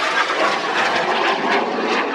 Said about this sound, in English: We got to love this, the sound of jets flying by.